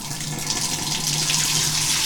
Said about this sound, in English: the way we prime the bathtub is we start the hot water,